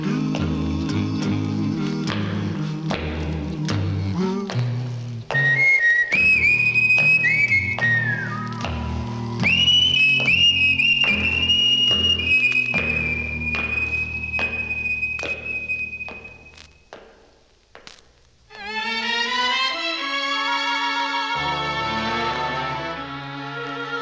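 Someone whistles a sustained, wavering high melody over instrumental music with a steady beat. The music briefly drops away near the end and then returns.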